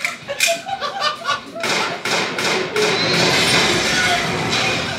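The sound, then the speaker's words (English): Gunshots fired into a garden salad for a comedy sketch effect: a quick run of thuds, then several sharp, hammering bangs that blur into a sustained, rushing hiss. “That was the sound of someone shooting a garden salad, like with a gun. It's from a sketch about making salads more masculine by adding bullets and nails and wing sauce and ribs and other things.”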